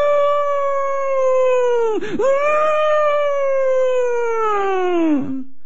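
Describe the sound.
Wolf howling from giant wolves on a dark autumn night, the three taking turns: a loud, long, wavering howl that slides slowly downward in pitch, briefly breaks near the middle, then drops sharply at the end.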